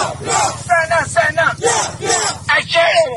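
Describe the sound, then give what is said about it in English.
A small group of demonstrators chants loudly in unison at a protest marking the anniversary of Myanmar's military coup. Their raised voices rise and fall in a rhythmic, forceful cadence with no pauses. “A small group of demonstrators mark the one-year anniversary of the military coup in Myanmar, using their voices to share a loud message that a revolution must win.”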